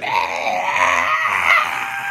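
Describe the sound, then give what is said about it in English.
A video game character screams in a continuous, strained, high-pitched cry that holds steady with slight wavering for about two seconds. “Why is he screaming so much? I set it to high.”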